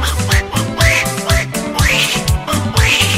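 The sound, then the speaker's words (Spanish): Cartoon duck-style quacking voice over a bass-heavy dance track. A few squawky rising-and-falling calls recur between the steady beats and sit inside the music rather than alone. “Y llegó el pato Donald con su nuevo vacilón. ¿Y cómo que dice el pato?”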